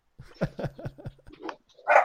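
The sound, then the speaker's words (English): Dogs bark in a quick run of about five short barks, followed by a couple of louder, higher-pitched barks. “they're just going to bark at you, is all.”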